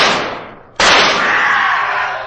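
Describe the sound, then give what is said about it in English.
A single pistol shot rings out as a radio drama sound effect in a moonlit cemetery: one sudden, loud crack lands just under a second in and trails into a long, hissing decay that fades slowly. “Quick, fire your pistol.”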